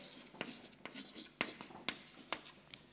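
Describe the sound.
Scratchy writing strokes during a lecture on philosophical systems, several brief sharp scrapes at irregular intervals over a faint background.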